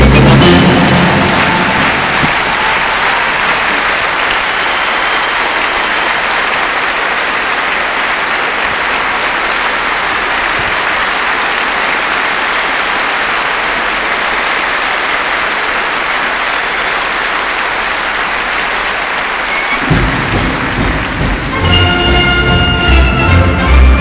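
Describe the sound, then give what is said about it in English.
A concert audience at the Royal Albert Hall applauds an orchestra with a loud, sustained, rain-like roar of clapping for about twenty seconds, then the orchestra starts playing at the very end. “Please, ladies and gentlemen, give this officer an enormous applause, the Anschluss Orchestra!”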